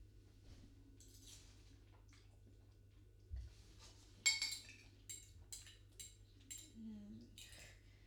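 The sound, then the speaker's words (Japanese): A utensil scrapes and clinks against a pot while scooping up bacon and other ingredients: faint, sparse metallic taps and light scrapes, a few sharper clinks standing out over a steady low hum. “どうしても最後の方にベーコンとか具材が溜まってしまって うまく救えない。”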